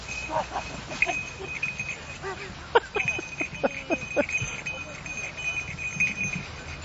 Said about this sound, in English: this is the sound of a guilty sheep.